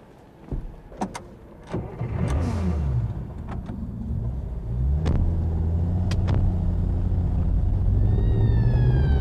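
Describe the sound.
A car sets off in pursuit: a few sharp clunks like doors and handling, then the engine starts and rumbles, revs up with rising pitch, and settles into a steady, louder drone as it drives away.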